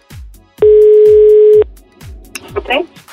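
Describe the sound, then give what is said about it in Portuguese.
A telephone ringback tone plays as a call is placed again. One loud, steady tone lasts about a second over regular low thumps, followed by fainter scattered sounds. “Vamos ligando de novo, senão você vai lá cutucar ele.”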